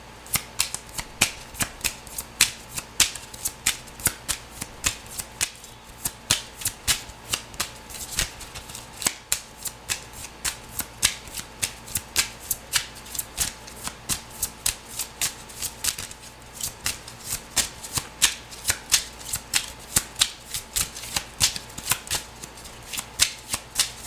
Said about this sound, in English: Okay, let's take a few cards and see what we get.